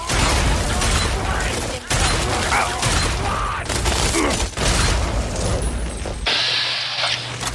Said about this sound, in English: Grenade.